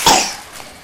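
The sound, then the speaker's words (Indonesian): A single short cough, sharp at the onset and quickly trailing off, heard alone with no talking. “Lagi batuk ya, ini lagi pada batuk nih.”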